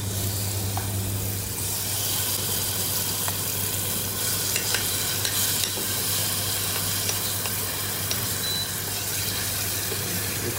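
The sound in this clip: Heated oil sizzles in a pan while frying over a low fire: a steady, continuous hiss dotted with small scattered crackles and pops that holds an even level throughout, with no talk.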